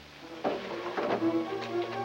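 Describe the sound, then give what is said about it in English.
A desk drawer is opened and then quickly closed, giving two short, distinct bursts about half a second apart over a steady low hum. “She turns around and opens a desk drawer, then glances up and quickly closes it.”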